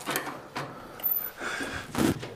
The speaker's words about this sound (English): That door's a little stiff.